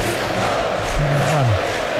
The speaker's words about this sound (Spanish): Bueno, estaba fantástico el estadio votando ahora, ¿eh? Que vote Riazor.